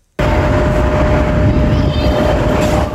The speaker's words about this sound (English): I made a recording just outside the airport terminal. I'm going to have to put that here.